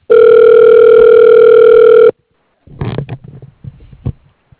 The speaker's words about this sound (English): Dialing.